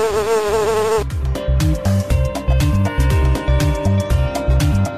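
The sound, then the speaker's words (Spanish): Loud buzzing of a bee, the drone wobbling in pitch for about a second, then holding steadier over a regular, rhythmic pulsing beat. “No soy florista, pero vivo entre las flores y, aunque me resista, el hombre me arrebata mis dulces labores. ¿Quién soy? ¡La abeja!”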